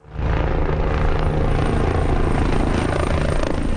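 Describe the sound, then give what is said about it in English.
A helicopter drops water on wildfire flames near the town of El Tiemblo in central Spain. Its loud, continuous rotor and engine roar holds steady throughout, with no pauses or other distinct sounds. “a helicopter waterbombs flames in the central town of El Tiemblo.”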